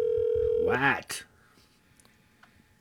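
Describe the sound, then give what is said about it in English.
Ringback tone of an outgoing telephone call: a steady electronic tone holds for under a second, a brief voice sound rises over it, then a sharp click and near silence with faint ticks. “I'm going to call her and just say good morning to her.”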